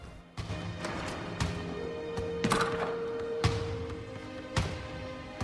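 Basketball thumps from a lone player shooting hoops on a court: several hollow thuds at roughly one-second intervals, fairly sharp and evenly spaced, over a steady low background hum.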